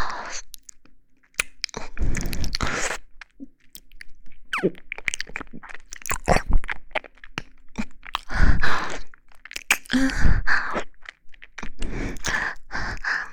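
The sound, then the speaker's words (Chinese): Crunching and chewing on a chocolate crisp-coated ice cream bar with a vanilla milkshake-style centre, loud close bites and crackling chews in several separate bursts with quiet gaps between them. “我在吃雪糕呢，巧克力味的脆皮雪糕。”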